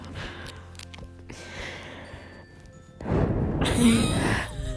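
A person breathes close into a camera microphone; soft background noise gives way to a loud, rough rush of breath that lasts over a second and then eases off.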